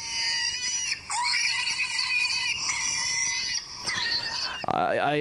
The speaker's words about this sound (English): I believe that I have just startled a wild boar piglet. I have to admit, I didn't expect that.